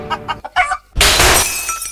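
Cheap glass shatters in a sudden loud crash about halfway through, then a sustained bright tinkling spray with ringing high tones. A few short clucking sounds come before the break.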